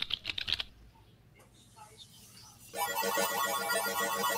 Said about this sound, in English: And so I'm going to plug all this stuff into Weather Trollbot. And then she's going to kick out what Felicia was really thinking when she responded. So I just got to type it in.